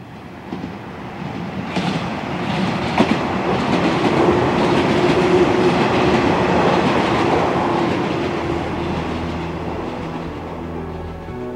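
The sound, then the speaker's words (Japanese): A commuter train runs on rails, heard from inside a passenger carriage: a continuous rumbling roar with rhythmic wheel clatter that stays steady and fairly loud throughout. “この日の帰りの電車でも僕はやっぱり星野と並んで釣り革を握っていた。”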